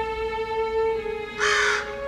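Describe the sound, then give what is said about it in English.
A raven gives a single harsh, hoarse caw near the end. It rises clearly above a faint, steady tonal background. “Ginny looks up at the raven.”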